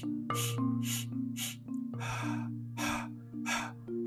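Audible breathing during a guided breathing exercise, a series of several airy breath bursts in a loose rhythm, one longer than the rest, over a steady low droning tone.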